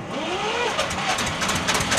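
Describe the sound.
A small moor railway engine starting up, a rough, steady mechanical rumble with broad noise and faint rhythmic pulsing that holds at an even level throughout.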